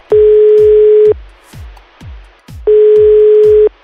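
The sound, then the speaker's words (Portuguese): Ringback tone of an outgoing telephone call: two steady, loud, mid-pitched tones, each lasting about a second, separated by a silent pause of roughly one and a half seconds. “Então vamos ligar, vai.”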